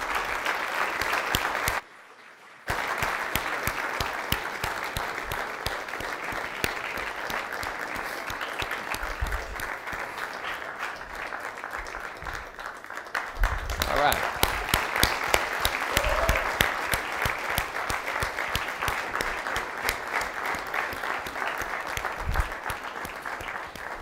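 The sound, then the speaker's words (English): An audience applauds to welcome a civil rights singing group. Dense, steady clapping runs throughout and swells a little midway, with one brief break near the start. “So if you would, please put your hands together and welcome Bernice Regan, Toshi Regan, Ruth Harris, and Charles Neblett, the Freedom Singers.”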